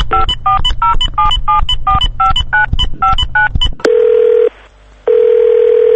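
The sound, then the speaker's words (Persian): Telephone keypad tones sound as a call is placed: a quick, loud run of many short beeps, then a steady ringing tone that breaks off briefly and resumes. “بذار من یه زنگ محسن بزنم.”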